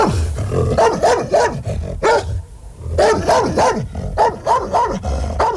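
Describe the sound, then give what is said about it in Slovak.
Fierce dog barking, delivered as harshly as possible: many loud, rough barks in quick bursts with short pauses between, alone with no talk. “Podišiel som k ním a zabrechal som, ako najstrašnejšie som vládal.”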